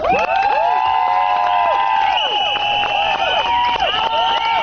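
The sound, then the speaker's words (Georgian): Crowd of women at a protest outside a parliament, shouting and whistling; loud, continuous chorus of high voices with repeated rising and falling whistles and cheers layered over constant crowd noise. “აი ასეთი შეძახილების და სასტუენების ხმის ფონზე მოითხოვდნენ პარლამენტის წინ შეკრებილი ქალების საკუთარი უფლებების დაცვას.”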